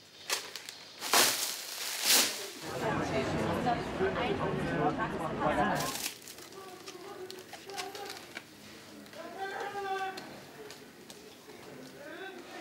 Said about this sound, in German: Jetzt sind gerade die ersten Seinmark-DVDs geliefert worden, aus Deutschland. 2 Wochen habe ich darauf gewartet. Puh, aufregend. Jetzt heißt es auspacken und reinschauen.